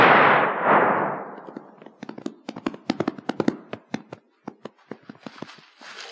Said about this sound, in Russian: Кто стрелял?